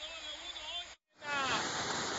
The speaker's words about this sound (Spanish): El caudal del agua ha ido aumentando. Vemos que está alrededor de unos 8 o 9 metros cúbicos de agua hacia el canal Trujillo